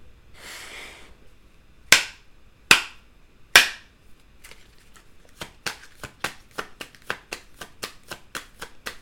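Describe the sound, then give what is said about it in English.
A tarot deck being shuffled: a brief riffling rush, then three sharp card slaps, followed by a fast, steady run of crisp clicking cards. “Let me go ahead and get a card from the Under the Roses deck.”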